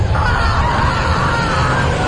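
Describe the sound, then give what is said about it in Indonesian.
Terrifying screams of people being tortured, heard from afar and echoing through a room: a dense, continuous wall of overlapping screams and yells that stays loud and unbroken throughout. “Dari jauh ku dengar teriakan-teriakan yang sangat menyeramkan, seperti teriakan-teriakan orang disiksa.”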